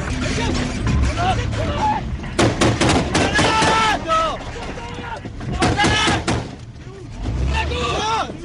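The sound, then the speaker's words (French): Gunfire erupts as men hidden in narrow alleys open fire on a convoy, with many sharp, cracking shots scattered throughout amid men's voices. “Des hommes se cachent dans les ruelles, ils ouvrent le feu sur le convoi, le combat est engagé.”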